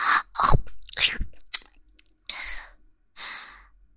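Mouth crunching and chewing sounds act out eating someone in a role-play: a few sharp crunchy bites, then soft breathy sighs with quiet gaps between them.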